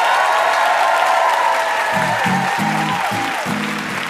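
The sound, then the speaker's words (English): Steady, dense applause from the audience of a live quiz show for guest Neil Gaiman, sustained and even throughout with no pause. “And one more hand for our VIP, Neil Gaiman.”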